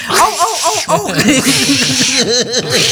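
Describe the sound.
A person's voice imitating a mating cat with many loud, rapid yowls, each wail arching up and back down in pitch, repeated in a quick, continuous string.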